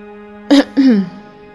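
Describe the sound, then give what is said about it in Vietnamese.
A person clears their throat in two short, loud bursts, the second longer and falling in pitch, over a steady low tonal hum. “Từ trong màn hình, Công Tôn hắng giọng một cái, thu hút lại sự chú ý của mọi người.”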